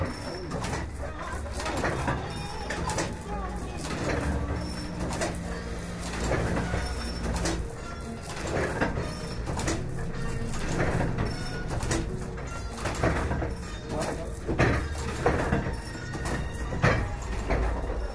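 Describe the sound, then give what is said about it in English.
A hand-operated printing press with a hand gear and foot pump, hand printing pages in a Jaipur backstreet, moves back and forth in repeated soft sliding, knocking strokes, with pigeons cooing and street noise around it. “I saw a very quiet machine going back and forth, and it's a printing press. They're hand printing each page individually.”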